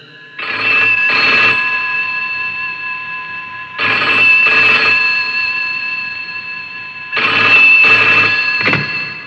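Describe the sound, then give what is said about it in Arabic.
Telephone ringing on an outgoing call: three loud, evenly spaced ring bursts, each a double-pulsed electronic trill, separated by silent pauses, with no talk. “دعنا نتصل به ونسأله.”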